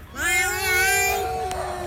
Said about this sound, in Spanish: Luego te pega esa gata